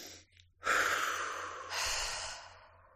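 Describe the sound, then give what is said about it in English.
A deep breath drawn in: a long, loud, airy rush of breath lasting a couple of seconds that swells and then trails off softly. “Let's take a deep breath. Okay, I'm ready.”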